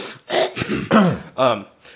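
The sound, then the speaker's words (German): Someone clears their throat in a few rough, gravelly bursts with voiced rasping between them. The bursts are separated by short pauses. “Ein bisschen räuspern.”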